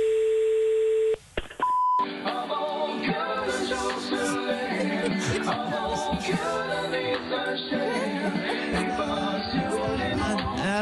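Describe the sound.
A telephone dial tone, then a few brief dialing beeps as a call is placed to an emergency service line. A dense, tuneful, music-like stretch follows and runs steadily to the end.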